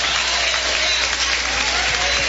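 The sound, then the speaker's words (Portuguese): Congregation applauding during a church service, a dense, continuous wash of clapping hands that stays loud and even from start to finish. “Mais alegres são as palmas para Jesus.”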